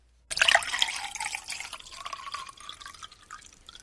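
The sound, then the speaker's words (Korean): A drink is poured into a glass to fill it to the brim: a sudden splash, then a steady trickling pour lasting a few seconds that gradually softens. “경혜는 제가 먹던 잔 위에 더 부어 가득 채웠다.”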